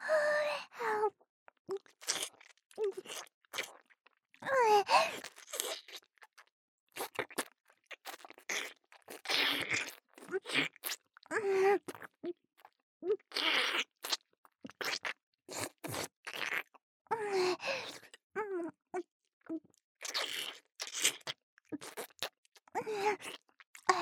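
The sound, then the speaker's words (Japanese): Chewing meat: many irregular, quiet, wet smacking and crunching mouth sounds arrive in uneven bursts with brief gaps between them. “肉をあんまりにも美味しいから全部加え込んじゃった”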